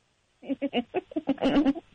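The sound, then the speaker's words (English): A voice imitates a dying horse with a run of short, strained, bleating vocal bursts that end in a longer, wavering wail, all fairly faint. “You can't mention a sound like a dying horse and then not try it right now.”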